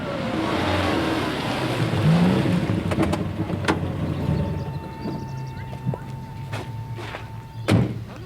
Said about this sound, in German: Ein grauer Mercedes stoppte